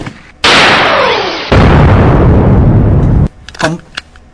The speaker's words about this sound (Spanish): Con balas de cebitas, por supuesto, ¿no? Nada de dispararle en serio